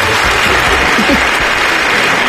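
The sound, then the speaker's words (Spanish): Applause from a live audience, a dense, steady wash of clapping that runs at an even loudness through the whole short stretch. “Espera. Otra vez, dos aplausos, muy bien.”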